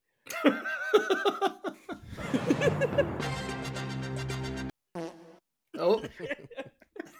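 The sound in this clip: A long, buzzy fart rumbles out amid bursts of laughter and talking voices, with more laughter after it ends.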